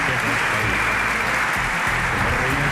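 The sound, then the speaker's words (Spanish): Spontaneous applause from a large audience, a dense, even roar of many hands clapping that stays loud and steady for almost three seconds, with a hint of voices mixed into the noise. “hay un público numerosísimo que se hace presente con este tipo de aplausos espontáneos”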